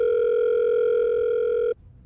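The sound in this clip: Telephone ringback tone on an outgoing call: a single steady, loud electronic tone with a bright overtone, holding evenly for nearly two seconds before cutting off abruptly into quiet line noise.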